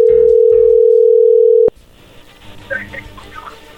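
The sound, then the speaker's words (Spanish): A telephone line gives a steady dial tone as a call is about to be made. The loud tone holds evenly, then cuts off abruptly with a click, leaving faint line noise. “Bueno, vamos a marcarle a ver qué pasa.”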